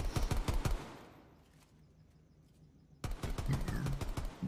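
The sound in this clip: Video game gunfire rattles in quick automatic bursts, a loud volley at the start, then a quiet gap, then another rapid burst of sharp shots, with no voices.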